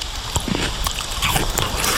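A slice is cut from an unripe, tart Lidice pear and bitten, giving a few sharp, crisp crunches and snaps spaced irregularly over a moderate background.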